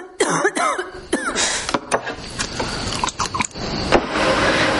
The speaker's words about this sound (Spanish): bebe de su vaso para calmar la tos